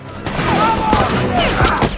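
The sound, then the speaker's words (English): Gunfire from rangers hidden behind a wagon's canvas, shooting at rebels: a dense, continuous volley of overlapping shots that stays loud from start to finish. “The rangers, hidden behind the wagon's canvas, open fire on the rebels.”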